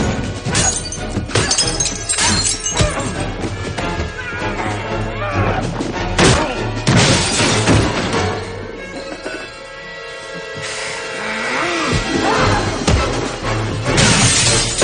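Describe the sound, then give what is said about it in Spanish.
Glass shattering as a mirror is smashed during a fight scene in a superhero action film: loud crashing bursts of breaking glass, with several heavy smashes and a brief quieter stretch between them. “rompen el espejo y entran en la sala secreta”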